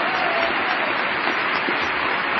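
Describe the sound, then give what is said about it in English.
Audience applause during President Bush's State of the Union address: a dense, even wash of clapping that holds at a steady, fairly loud level throughout. “Don't tell the audience that, though. They just love this. They're eating it up. Go, President Bush! Whatever you say is great. How much of the... What's the percentage of the State of the Union address that's applause?”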